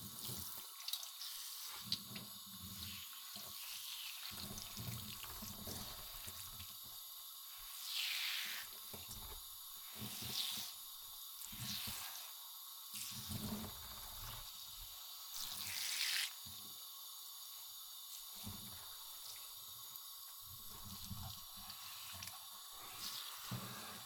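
Warm water running and spraying during hair washing, a faint steady hiss with a few brief louder swells of spray and no talk.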